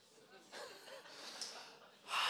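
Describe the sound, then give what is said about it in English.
A person takes an audible breath, with soft breathy sounds early on and a louder, gasp-like rush of air at the end. “and then I take a breath. I take a breath because it's needed.”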